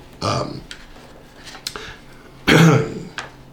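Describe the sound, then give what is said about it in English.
A person coughing, two strong, harsh bursts separated by quieter throat noises, with no talk in between. “excuse me, I continually need to cough.”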